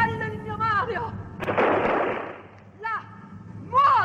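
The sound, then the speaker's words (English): A firing-squad volley in an opera execution scene: a single loud, crackling burst of gunfire that fades over about a second, with sung voices before and after it. “But when the bullets go off,”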